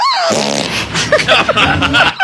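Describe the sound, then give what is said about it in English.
A woman forces out a fart while getting a chiropractic adjustment. It is a loud, drawn-out, raspy flutter lasting about two seconds, with uneven buzzing pulses throughout. “God, she forced a fart out on that one, didn't she?”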